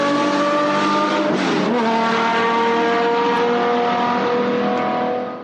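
A 1970 car with a 5.4-liter, 580-horsepower engine roars at speed, a loud, sustained engine note rich in harmonic tones that holds steady throughout and fades slightly at the very end.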